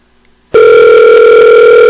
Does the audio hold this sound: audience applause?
no